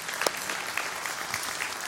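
An audience claps during a church announcement about appointing a new elder, producing dense, steady applause that holds at an even level throughout.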